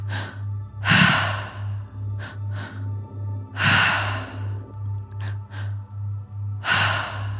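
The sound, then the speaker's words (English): Deep breathing in a guided breathwork session, with three long, loud belly-and-chest breaths and softer, shorter breaths between them, all over a steady, pulsing low backing tone. “Keep the breath moving.”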